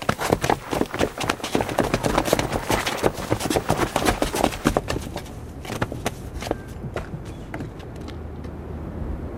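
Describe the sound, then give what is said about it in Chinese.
Soldiers run off in step after turning right: a fast, steady tramp of many boots. The loud rhythmic stamping continues for several seconds, then thins toward the end. “向右转，跑步走。”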